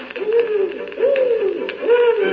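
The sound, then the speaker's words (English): Owl hooting: three smooth, drawn-out hoots at an even pace, each rising then falling in pitch, over a soft background. “Mother Goose had a house built in the wood, an owl at the door as a watchman stood.”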